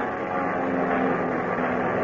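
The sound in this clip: A propeller airplane engine drones as the plane climbs steeply ahead of a storm, a dense, unbroken roar with a sustained low tone and no pauses.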